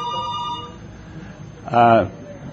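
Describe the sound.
Telephones ringing: a sustained tonal ring opens the moment, then after a lull a louder, brief electronic ring sounds near the end over a low background murmur.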